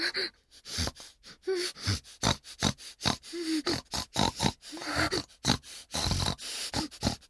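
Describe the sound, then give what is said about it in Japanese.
A human voice imitates a pig's grunting with many short, rough snorting bursts in an irregular rhythm, moderately loud, with brief gaps between the grunts. “さっさと下品な豚真似ができるようになってください。”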